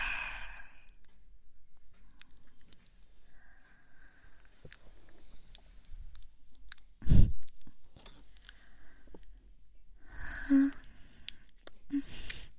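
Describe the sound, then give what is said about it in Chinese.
Heavy breathing close to the microphone: a few soft, breathy exhales and sighs, faint and spread out over near silence. “喜欢我的呼吸呀”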